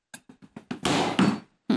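Abdigör köfte mixture is pounded by hand in a bowl: five quick, soft, dull thuds in an even rhythm, then a longer, harsher, noisier burst and one more thump.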